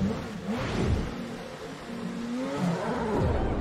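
IndyCar race cars at the start of the Gateway race, with a sustained loud engine roar whose pitch repeatedly sweeps up and down as the cars accelerate.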